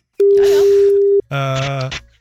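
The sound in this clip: A single steady ringing tone, about a second long, on an outgoing telephone call, with other sound layered over it. A voice follows right after.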